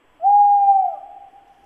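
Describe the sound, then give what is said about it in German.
A tawny owl gives a single drawn-out hoot, a clear, steady mid-pitched tone that holds for about a second and then trails off more faintly, alone with no other sounds. “Das würde mir nachts im Wald einen Schauer über den Rücken schicken. Der Waldkauz.”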